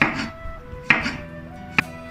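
A knife chops a cucumber into wedges with three crisp, evenly spaced strikes, each a short sharp knock, over a faint steady background.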